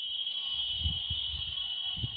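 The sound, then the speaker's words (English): A quiz-game buzzer sounds as one long, unbroken, steady high-pitched tone. It stays faint and holds its level from start to finish. “Is Tony's buzzer still going here? Yeah. It's very long.”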